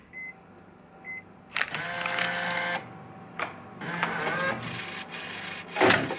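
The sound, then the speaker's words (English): Vending machine dispensing two items: two short electronic beeps, then a stretch of motorized whirring, a clunk, a second whirring run, and a louder thud near the end. “Don't you love it when the vending machine gives you two for the price of one?”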